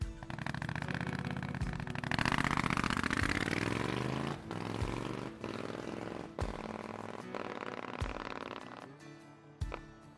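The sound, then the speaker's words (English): A black Triumph Scrambler 900 motorcycle engine revs with a loud, throaty burble whose pitch climbs and falls over several throttle blips. Sharp exhaust pops are scattered throughout, and nobody talks. “I ride a black Triumph Scrambler 900. Here's how it sounds.”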